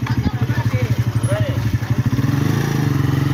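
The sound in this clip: A motorcycle rickshaw engine runs with a rapid, even, low-pitched throb that holds steady throughout, with faint voices over it.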